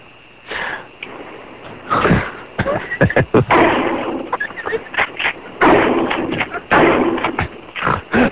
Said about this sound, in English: hear the sound of the shotgun. And what part of the car are you shooting at?